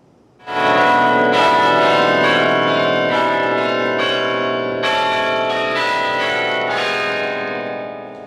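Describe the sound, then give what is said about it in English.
Duke University Chapel bells ring out Michigan State University's alma mater and fight song, a loud, continuous melody of sustained, overlapping bell tones with fresh strikes throughout and no talk. “Listen as the Duke University Chapel featuring the alma mater and fight song of MSU.”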